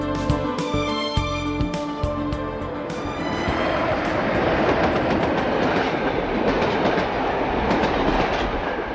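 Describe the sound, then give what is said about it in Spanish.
A freight train runs along the line out of Arriaga, Oaxaca, in southern Mexico, with a steady, loud rumble and continuous rhythmic clickety-clack of wheels over the rails. “No hay más que acudir a la ruta del tren de mercancías que parte desde Arraiga, estado de Oaxaca, en el sur de México”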